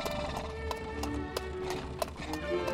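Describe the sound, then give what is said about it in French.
Steady clip-clop of a mare's hooves as she trots along a road pulling a cart, the hoofbeats clear above a constant low rumble of wheels and road noise. “Pour l'instant, Rosa s'ébroue et trotte joyeusement sur la route.”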